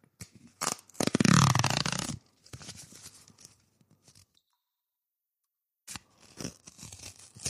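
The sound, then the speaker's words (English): A mailed package is ripped open with one loud, sustained tear of paper or plastic lasting about a second, then softer rustling and crinkling, a silent pause, and more scattered tearing and handling noises. “Oh, I fucked that rip. That was a bad rip. Oh, that was a shit rip too.”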